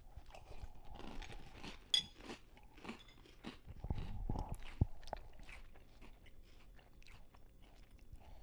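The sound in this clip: People crunching and chewing a chocolate-flavoured cereal snack: quiet, irregular crisp crunches and mouth noises, with a sharper crunch early on and denser chewing midway, and no talking.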